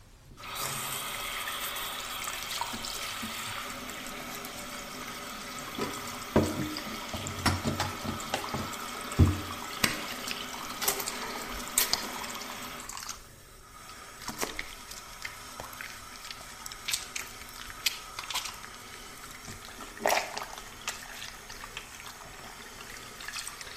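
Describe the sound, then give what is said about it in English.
Hands being washed under a running tap at a bathroom sink: steady streaming water with splashes and rubbing throughout, growing somewhat quieter partway through. “See if this one gives you the tingles. Washing my hands in the bathroom.”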